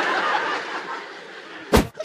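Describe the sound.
A single loud, sharp bang of a door slamming cuts in near the end, over a steady murmur of background noise.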